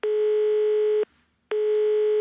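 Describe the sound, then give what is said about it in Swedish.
Telephone ringing tone as a call is placed: two steady, loud, mid-pitched tones of about a second each, separated by a short silent gap, with no voices. “Jag ska ringa Adam nu. Ska vi se var han är någonstans.”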